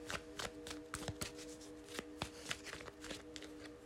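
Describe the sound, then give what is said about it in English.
A Modern Witches Tarot deck is shuffled by hand, giving many quick, soft riffling clicks and slaps in an irregular rhythm over a faint, steady hum. “I am shuffling the Modern Witches Tarot.”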